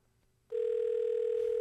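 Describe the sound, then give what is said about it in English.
A ringing tone plays on a telephone call placed to a federal building office. After brief quiet, it begins sharply as a loud, steady single-pitched tone and holds unchanged to the end. “Well, maybe a phone is ringing somewhere in the compound.”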